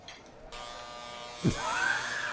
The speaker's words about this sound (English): Somebody getting a shave? I'm gonna trim my beard while you're like, finding this thing.